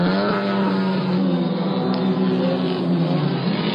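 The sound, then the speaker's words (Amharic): Racing engines roar at a car and motorcycle race in Asmara, Eritrea, held on Independence Day, with 1,000 cc cars among the classes. A dense, loud, continuous drone runs without pause throughout. “ብምኽንያት መበል 28 ዓመት በዓል ናጽነት ኤርትራ ሰንበት 16 ሰነ 2019 ናይ መኪናን ሞተርሳይክልን ቅድድም ተኻይዱ።”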